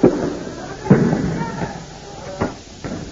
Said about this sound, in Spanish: Escuchan disparos de gases lacrimógenos.